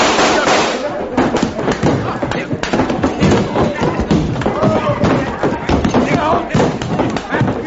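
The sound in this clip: Gunshots from a gun grabbed off a table in a courtroom scuffle: many sharp, irregular bangs and thuds in quick succession, mixed with shouting voices throughout.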